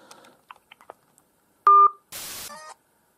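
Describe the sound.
Telephone keypad dialing while calling a number back: a few faint clicks lead to one clear, brief two-note dial tone, then a short noisy burst and another brief tone.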